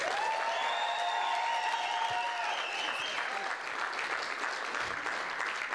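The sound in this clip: An audience gives a speaker a loud, steady burst of applause as she is welcomed to the stage, with dense clapping that keeps going at full strength for several seconds.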